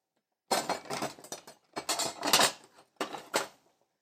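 Metal cutlery clinks and rattles as someone searches for a spoon in a kitchen while cooking curry. Bright jangling bursts repeat in several irregular clusters with brief pauses between them, and no talking.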